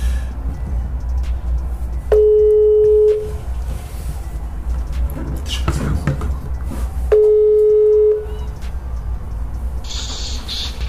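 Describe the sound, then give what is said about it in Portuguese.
Ringback tone while placing a phone call: two steady, mid-pitched tones of about a second each, spaced about five seconds apart over faint background hiss. “então a gente vai ligar para ele agora. Eu vou ligar pro meu amigo Douglas Gonçalves, e eu tô muito animado para isso. Vamos ver se ele vai me atender aqui.”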